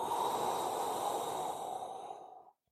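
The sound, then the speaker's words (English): A long, deep breath during a slow breathing exercise: one steady, airy rush of air, loud and unbroken for about two and a half seconds, then cut off abruptly. “Breathe in for five. Breathe out for five.”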